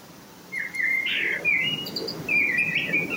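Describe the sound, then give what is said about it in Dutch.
A common blackbird sings clear, fluting whistled phrases, three bright bursts of warbling song separated by short pauses, loud and alone. “De merel die Mark Berksma hoorde, is al duidelijk beter bij stem.”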